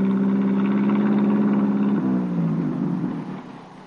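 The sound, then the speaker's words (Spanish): A small dark blue car parks on a city street in Seville. Its engine hums steadily and loudly, then drops in pitch partway through and fades out. “Más tarde, Reyes aparca su coche en una calle de Sevilla. Es un utilitario azul oscuro.”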